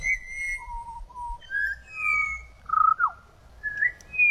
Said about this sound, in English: That is the pied butcher bird. So that's the sound of the pied butcher bird.